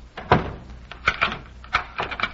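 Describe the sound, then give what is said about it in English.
A door is pushed shut with a few wooden knocks and clunks spread across the moment. “Well, can't you wait until I close the door?”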